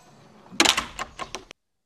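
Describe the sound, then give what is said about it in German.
A door falling shut in a strange house, heard as a quick series of sharp clacks and knocks that ends abruptly in silence. “Da fällt die Tür zu.”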